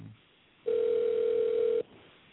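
A telephone line tone sounds after a dropped cell phone call: one steady, loud, mid-pitched tone holding for about a second, with faint line noise before and after it.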